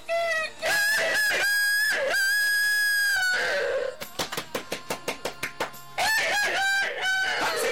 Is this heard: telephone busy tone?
no